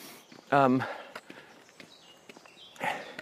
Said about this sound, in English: so we're climbing. There's a big tree that has fallen over the road. Well, it's a bit, I can still walk underneath it.